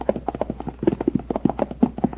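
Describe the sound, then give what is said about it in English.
Hooves clip-clop as horses are led on foot into their stable stalls after the riders dismount; many light, quick hoof taps in a steady, fairly even rhythm with no talk. “Now, dismount. Lead your horses into their respective stalls.”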